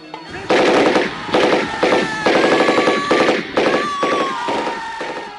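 A Sten gun fires bursts in a battle sound effect set around bunkers: loud, rapid automatic fire comes in several closely spaced bursts that crackle and echo with sharp, dense cracks throughout.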